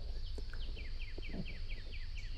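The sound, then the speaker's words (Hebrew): Birdsong played as a calm backdrop for meditation: a quick, even run of many high, downward-sliding chirps, quiet over a soft low hum. “נשים לנו קצת ציוצים של ציפורים.”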